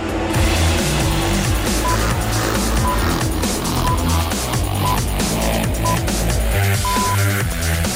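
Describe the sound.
Roar of MotoGP motorcycles pulling away on the warm-up lap at Jerez before the sprint race: a loud, dense, continuous engine din that holds steady for the whole stretch.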